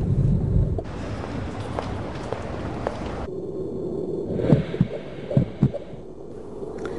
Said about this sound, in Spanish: Ahora que el corazón late, las células sanguíneas empiezan a circular en el feto